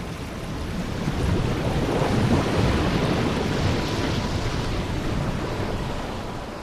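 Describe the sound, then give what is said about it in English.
Ocean waves rise from calm water and surge toward shore. A broad, rushing roar of water swells within the first second and stays full and steady throughout, with no voices. “Waves rise from the calm water and move toward shore.”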